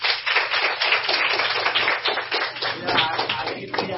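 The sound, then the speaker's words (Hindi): Applause from an audience at a study camp: dense, continuous clapping that stays steady and fairly loud for the whole four seconds. “सभी के लिए जोरदार ताली।”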